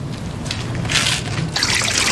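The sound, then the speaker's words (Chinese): Water runs steadily from a tap while dishes are washed, a continuous splashing hiss that swells slightly partway through, with no voices. “你先别洗碗了啊。”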